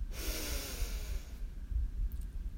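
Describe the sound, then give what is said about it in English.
Slow breathing in and out during a guided breathing exercise, heard as a soft, sustained hiss of airflow over a low rumble, quiet and without talk. “Breathe in and out.”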